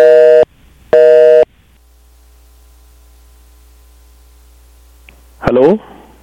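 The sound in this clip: Phone line tone after a caller was disconnected: two loud, buzzy tone pulses of equal length, then a steady low hum, with a brief voice near the end.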